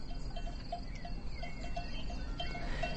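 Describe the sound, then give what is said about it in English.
Faint metallic bell clinks from a flock of sheep high above a valley, small scattered tinkles at an irregular pace over a steady low rumble of outdoor ambience. “a recording made high above a valley with sheep by field recordist Johann Christ.”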